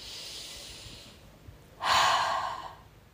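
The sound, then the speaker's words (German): Deep breathing in and out during a relaxation exercise: a soft, airy inhale, a short pause, then a louder, longer exhale, alone with no talk. “Dann würde es einfach mal darum gehen, wirklich ein- und ausatmen. Das können wir gerne auch hier einmal machen.”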